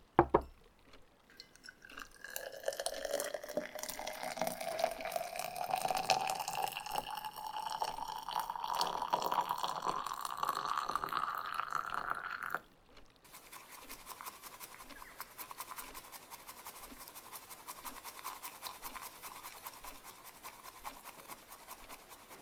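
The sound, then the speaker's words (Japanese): Hot water pours steadily for about ten seconds while preparing tea, its tone rising as the vessel fills. It then switches abruptly to rapid, even, scratchy whisking of the tea. “なら、早速、このお茶、立てていきますね。”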